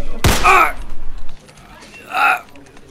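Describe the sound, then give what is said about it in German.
A single sharp gunshot as a man is shot, a sudden loud crack followed by vocal sounds and a later shorter voiced burst. “War das jetzt nötig, ihn zu erschießen?”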